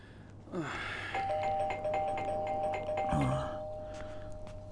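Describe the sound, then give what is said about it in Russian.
A doorbell rings out with ding-dong chimes. Clear, sustained bell tones ring over a low background hum and fade away slowly. “В дверь звонят родители Нины.”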